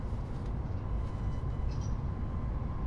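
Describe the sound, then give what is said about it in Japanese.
Steady rumble and rattle inside a moving JR East Yamabiko shinkansen bound for Tokyo, a continuous even roar with no voices. “今日も JR 東日本をご利用くださいましてありがとうございます。やまびこ350号東京行きです。”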